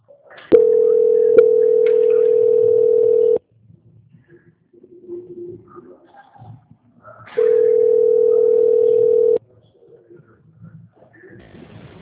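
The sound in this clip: Telephone tone during a call transfer: two long, steady mid-pitched tones, each lasting a few seconds, separated by a quieter gap with faint background sounds.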